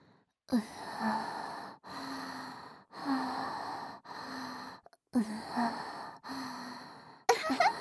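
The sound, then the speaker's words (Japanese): A girl breathing softly and slowly, about seven drawn-out breaths with short gaps between them, some sounding like sighs or light gasps, with no words. “こんな感じでうちの呼吸の音が聞こえてくるの。”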